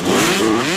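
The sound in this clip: Motocross bike engine revving in a short, loud, continuous burst, its steady buzzing drone holding roughly even throughout.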